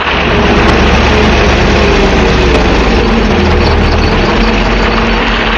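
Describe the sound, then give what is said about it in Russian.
A garbage truck's heavy engine runs as a loud, steady rumbling drone, holding an even level throughout with no clear change in pace. “Машина подъехала и остановилась. Это был мусоровоз.”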